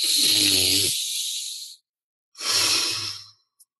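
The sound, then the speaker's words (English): Deep, slow breaths in and out, taken during a guided breathing exercise: two long, loud, airy rushes of breath, the first longer with a throaty edge, ending with a tiny click. “Let's take 20 seconds and just take 3 deep breaths, which frankly, man, it's the most powerful thing on earth. So let's just take a moment and breathe along with me.”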